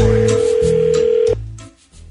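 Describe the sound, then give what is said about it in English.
Telephone ringing from an incoming call, heard as a steady, loud mid-pitched tone over a low hum that stops abruptly about two-thirds of the way through. “I'd be careful answering that call.”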